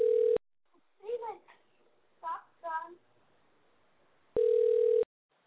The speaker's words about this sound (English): I'm dialing. We're dialing right here. We're dialing in.